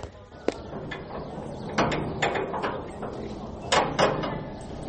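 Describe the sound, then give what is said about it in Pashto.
A door in a prison being opened after a call to open it, with a few dull knocks and clunks rising out of a noisy, murmuring background. “زابطه دروازه خلاصه کړه”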